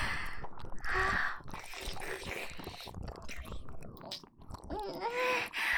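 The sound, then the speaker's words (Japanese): A cat character chews and eats food, with soft wet munching and small bites over several seconds, mixed with breathy vocal sounds. “やっと食べられるにゃ。じゃあいただくにゃ。”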